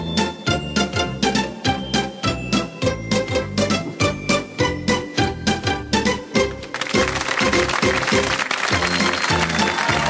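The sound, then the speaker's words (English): A rhythmic instrumental theme tune plays for a parody of the game show Kink My Bluff. It has a steady, punchy beat, and a denser, noisier wash like crowd applause joins in the later part. “I want to play the theme tune to Kink My Bluff. So, but it's not really. But let me play the theme tune and then I'll explain what I want us to do.”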